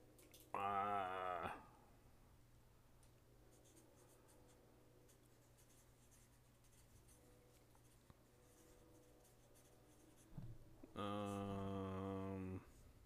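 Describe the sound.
A pen scratches faintly on paper as answers are written down, with soft, steady scribbling through a long quiet stretch. Short bursts of voice come at the start and the end.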